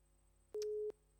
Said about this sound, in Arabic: فصلت المكالمة، تمام.